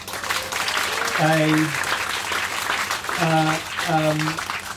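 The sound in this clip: Audience applause follows an interview with a live audience at an event with music, a steady loud wash of clapping with a few brief voiced tones rising above it.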